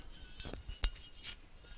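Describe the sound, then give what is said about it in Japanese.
A glass bottle of Bombay Sapphire gin is picked up and handled, making faint rubbing and scraping sounds with a single sharp glassy knock near the middle. “これにしようかな。ボンベイ。よいしょ。ボンベイサファイア。これにしようかなと思います。”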